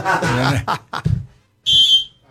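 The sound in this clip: A short whistle blast, one shrill, steady, high tone lasting about half a second, coming right after a few quick words of talk.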